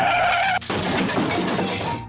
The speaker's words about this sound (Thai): ก็รถชนเหมือนกัน